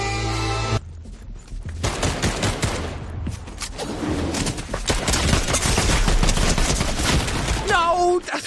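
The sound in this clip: Gunfire from a gun in a video game, with many rapid shots crackling in dense bursts nearly throughout and a voice heard briefly.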